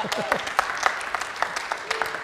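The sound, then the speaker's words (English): Audience applause as a performer is welcomed to a stage: many dense hand claps that keep a steady level throughout, with a voice briefly audible at the start. “So if you want to keep the applause running, we can welcome to the stage.”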